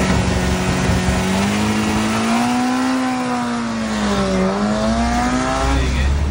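A rear-engined car revs fairly high at the foot of a hill climb. Its loud, steady engine drone swells and dips in pitch, climbing early, sagging near the middle, then rising again before dropping away at the end.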